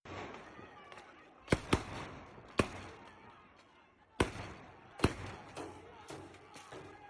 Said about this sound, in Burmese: မန္တလေးမြို့မှာဗုဒ္ဓဦးနေ့ညပိုင်းအမှောင်ကျချိန်မှာတော့လုံခြုံရေးတပ်ဖွဲ့ဝင်တွေရဲ့ပစ်ခတ်တံမျိုးစုံကိုကြားကြရပါတယ